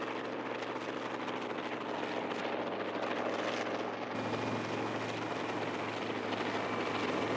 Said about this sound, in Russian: Вертолет Ненарокова пролетает над белокаменной церковью на берегу широкой реки.